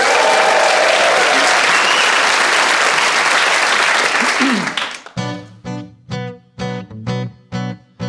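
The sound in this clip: Audience applause welcoming Mitch Benn: loud, dense clapping for about five seconds, then it cuts away as a run of rhythmic, punchy musical chords begins.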